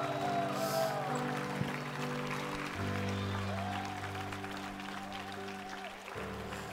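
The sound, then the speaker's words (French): Congregation applause during a church worship service as the people stand to give an ovation to God, a steady wash of clapping beneath sustained, held musical tones. “Est-ce qu'on peut se lever ensemble et lui donner une ovation, la plus grande ovation que vous pouvez donner à Adonai?”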